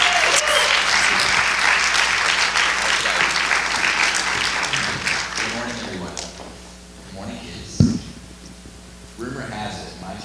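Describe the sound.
A church audience applauds to welcome guest speakers at a Sunday morning Baptism and Orphan Sunday service. The dense clapping is loud at first and fades over about six seconds, and a speaking voice follows.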